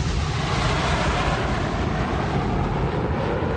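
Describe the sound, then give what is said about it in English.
A jet plane flying overhead makes a steady, broad, rushing roar that holds at an even loudness throughout, with no voices. “That's a jet mine. I love that one. I actually enjoy that sound. What? That's a plane”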